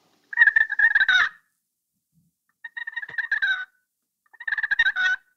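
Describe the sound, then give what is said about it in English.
Turkey friction call, a striker dragged slowly across the call surface, producing three drawn-out, raspy, broken calls, each lasting around a second, separated by pauses. “when I drag the striker slowly across the surface, I won't make the yelp at first. I want to make the two notes first. So it'll be a drawn-out call where you hear the high pitch to low pitch.”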